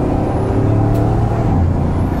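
A racing car engine roars at high revs, around 6,960 rpm with 1614 horsepower, at the end of the front straight: a loud, dense, continuous drone that holds steady throughout.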